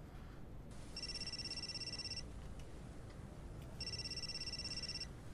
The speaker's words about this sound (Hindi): Phone क्यों नहीं उठा रही हो? शायद तुम्हारा कोई मुवक्किल कॉल कर रहा हो।